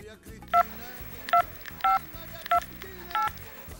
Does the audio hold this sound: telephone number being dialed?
yes